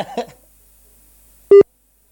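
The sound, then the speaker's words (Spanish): A single brief tone on an outgoing telephone call, a short steady mid-pitched beep rich in harmonics, sounding once and alone after a quiet gap. “Vamos a ver si es que está al pendiente del teléfono. Ahí al menos está sonando.”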